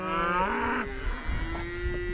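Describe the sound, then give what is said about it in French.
Hornless Swedish Red Polled cows mooing on a farm: two deep, drawn-out bellowing moos, the first loud and rising, the second lower and steadier, with no talk. “Alors c'est un merveilleux concert, on est carrément au milieu des vaches.”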